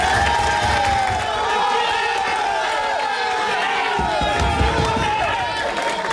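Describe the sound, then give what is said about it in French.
French national football team players cheering and celebrating a win, a loud, dense and unbroken mass of shouting and chanting voices that holds steady throughout. “Voilà la joie de l'équipe de France hier soir.”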